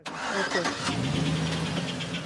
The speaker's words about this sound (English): A sorry parade of banged up cars idle bumper to bumper near a remote border crossing outside El Paso.